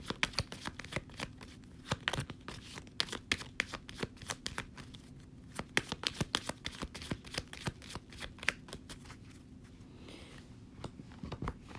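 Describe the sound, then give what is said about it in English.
Lenormand cards being shuffled and drawn, with many quick, crisp card snaps and papery rustles in an irregular flurry. The sound is fairly quiet over a steady low hum. “So we're going to get three Lenormand cards real quick.”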